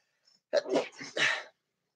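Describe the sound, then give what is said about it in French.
A single loud human sneeze, a broad breathy burst lasting about a second, heard alone with no talk around it. “Je vais éternuer. Une seconde.”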